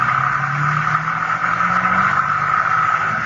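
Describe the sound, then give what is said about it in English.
A car drives off, its engine giving a steady, moderately loud low drone that holds for the whole clip, with no voices. “I watched Trigg drive Jill toward the cottage, and then I followed on foot.”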